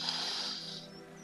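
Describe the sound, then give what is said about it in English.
A slow, deep breath drawn in during a guided relaxation exercise: a soft, airy hiss lasting under a second, which then fades and leaves a low hum beneath. “So please sit with your neck and back straight, both feet on the ground, close your eyes and take a deep breath in”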